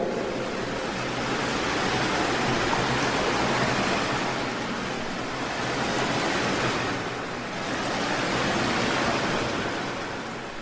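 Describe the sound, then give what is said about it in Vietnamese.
Flood water released from an opened dam rushes in a steady, loud, hissing roar that swells and eases in a few slow surges without pause. “mọi người chỉ kịp nhìn thấy một bức tường màu trắng bạc, tựa như vô vàn con côn trùng màu bạc ầm ầm ào tới. Là nước, nước lũ.”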